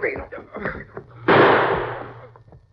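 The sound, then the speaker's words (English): A single loud gunshot rings out in a radio drama, a sharp blast with a ringing tail that fades over about a second. Voices speak just before it. “I rushed into the house and Jim was shot, dying.”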